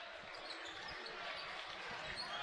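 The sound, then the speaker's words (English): A basketball is dribbled on a court during a high school game between New Richmond and Chi-High, its low bouncing thumps repeating under steady, loud crowd noise. “On the dribble, there's the shot.”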